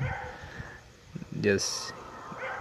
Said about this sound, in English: If you hear some growling or so like that, it's my Chihuahua dog